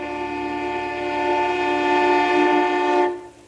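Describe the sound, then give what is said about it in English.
A train horn blows one long, steady blast of about three seconds: a loud, sustained chord of layered tones that cuts off abruptly, leaving quiet background with no talking. “I think it's a train horn.”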